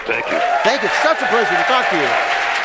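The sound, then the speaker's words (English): Studio audience laughter and applause murmur in the background of a comedy quiz show while a voice speaks clearly over them. The crowd sound stays fairly soft and steady beneath the talking. “Now, the strange noises you hear in the background are what we used to call laughter and applause.”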